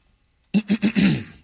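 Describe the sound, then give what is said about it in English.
A throat clearing breaks out of silence as three short rasping pulses, then a longer gravelly burst that fades away. “Clear your throat.”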